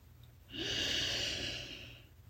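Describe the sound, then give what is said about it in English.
A single slow, deep breath taken during a night-time guided meditation, soft and airy, swelling after a quiet start, holding, then fading away, with no talk. “Inhale the sparkling lights of the Golden Gate Bridge skyline.”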